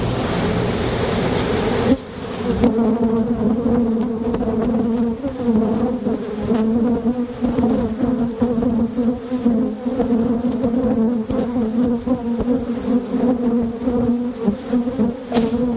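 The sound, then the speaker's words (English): Angry bees buzz around beehives being inspected, a dense, loud, steady drone that wavers slightly in intensity and carries on alone throughout, after a brief burst of rougher noise at the start. “It's the sound of bees getting a little angry that listener Tim recorded last summer when he was inspecting his beehives”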